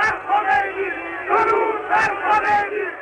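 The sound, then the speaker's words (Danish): A large crowd welcoming Ayatollah Khomeini at Tehran airport in 1979 shouts and chants in loud, rhythmic surges of massed voices, with sharp bursts recurring throughout. “Irans ayatollah Khomeini vendte hjem fra eksil i Frankrig i 1979. Her bydes han velkommen i Teherans lufthavn.”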